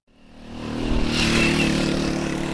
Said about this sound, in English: That is the sound of a boda boda, the motorbikes you see all across Uganda carrying people and goods.